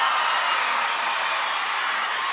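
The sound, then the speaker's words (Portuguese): Audience applause for a singer at a DVD recording, a dense, steady wash of clapping and crowd noise that holds at an even, fairly loud level throughout. “Salve de palmas pra todas as minhas fãs lindas, maravilhosas e cheirosas!”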